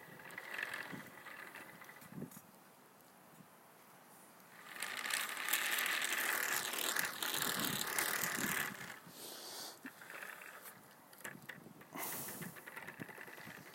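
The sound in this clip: Yarn is spliced and wound on, giving a continuous mechanical whirring with ratchet-like clicking, quieter at first and then louder and denser through the middle stretch.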